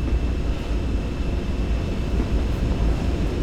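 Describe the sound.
A train rolling along in the MaSzyna train simulator video game gives a continuous low rumble, steady and fairly loud, with no distinct clacks or horn and no speech.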